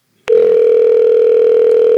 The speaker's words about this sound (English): Answer the phone